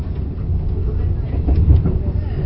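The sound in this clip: A steady low rumble from a six-car passenger train running, heard from inside a carriage. The dull, continuous roar holds at a fairly even level throughout, with slight swells in loudness and no clear separate events.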